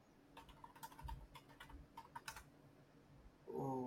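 Faint keyboard typing as someone jots down notes: scattered, uneven clicks of keys tapping at an irregular rhythm, with a brief voiced sound rising at the very end.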